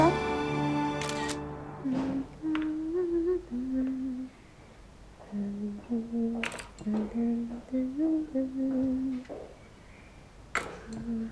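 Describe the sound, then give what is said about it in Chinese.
A camera takes a photo with a brief sharp shutter snap amid people talking in a lively exchange. “哎，等一下，拍照留念。”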